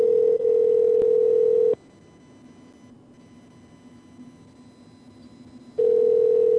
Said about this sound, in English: I like the part of the show where the phones ring.